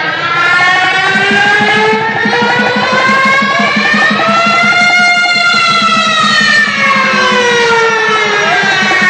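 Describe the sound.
A police car siren wails loudly and continuously, its pitch sweeping slowly up and then back down over a steady, pulsing low rumble.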